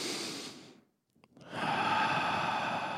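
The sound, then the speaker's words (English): Slow meditative breathing, with a long breath in and a long breath out separated by a brief silent pause. Both breaths are soft, airy and steady, with no talking. “It's you breathe in, 2, and you breathe out, 4, right? Simple as that. 1 second meditation.”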